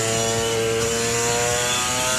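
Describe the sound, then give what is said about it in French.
A two-stroke 250 cc motorbike engine revving at fairly high revs, a loud, steady, raspy buzzing drone rich in harmonics that holds constant throughout with no voices. “c'est un son vraiment caractéristique du deux temps, surtout une 250 qui avait démonté en régime quand même assez”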